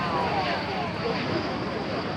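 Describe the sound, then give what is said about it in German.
Steady broad jet roar from a Su-57 military jet flying at an air show in Zhuhai, China, a dense, even rumble that holds at a loud level for the whole stretch without clear breaks or swells. “Die Su-57 ist wirklich sehr wendig. Das Flugzeug scheint am Himmel zu tanzen.”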